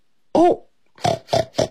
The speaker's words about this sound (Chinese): 这是什么声音？哦，原来是一只小猪猪从猪圈里面跑出来了。